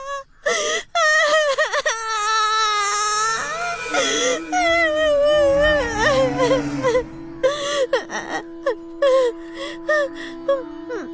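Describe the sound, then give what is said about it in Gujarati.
A person crying loudly in anguish: long, high wailing moans broken by gasping breaths and sobbing catches, rising and falling in pitch, with short pauses between bursts. “તું આ મોટે મોટે થી રડે છે”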